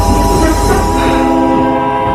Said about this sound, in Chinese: 列车缓缓地启动了